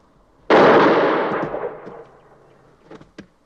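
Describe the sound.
A sharp, loud gunshot bang during a duel rings out and decays slowly over about two seconds, followed by two faint, short pops.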